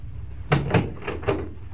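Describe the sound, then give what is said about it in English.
A door being closed gives a few muffled thumps and knocks in quick succession, moderately loud against a quiet background. “Yes. Come in and close the door.”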